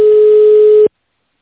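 Telephone line tone while an automated system transfers a call: a single steady, mid-pitched electronic beep lasting just under a second, then an abrupt cut to silence.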